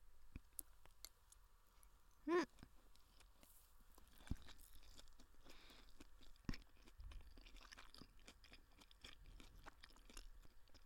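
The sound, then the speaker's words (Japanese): Quiet chewing of fried rice during a meal: soft, crisp little crunches and mouth clicks repeat steadily, with one slightly louder mouth sound early on. “チャーハン食べとるとやっぱ冷たいお水が飲みたくなるね。お腹いっぱいになってきたけど、美味しいから最後まで食べるね。”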